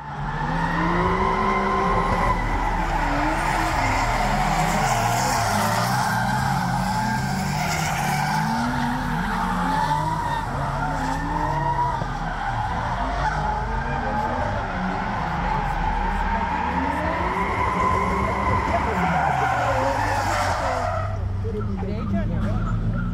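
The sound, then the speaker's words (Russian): Tires screech as three cars drift together at a drift event in Lithuania. A loud, wavering squeal and engine roar hold steady for about twenty seconds before easing off. “Но главное блюдо выходных – дрифт. В Литве очень популярны заезды тройками.”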